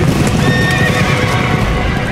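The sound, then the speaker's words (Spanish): Horses galloping, with loud, continuous clip-clop hoofbeats throughout. A horse's whinny rises above the pounding hooves early on. “¡Que llegan los caballos amarillos!”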